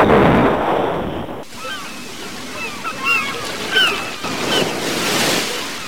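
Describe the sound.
Sea waves and wind surge around a raft on open water just after leaving an island. A loud rush opens, then steadier swells of surf and gusting wind rise and fall.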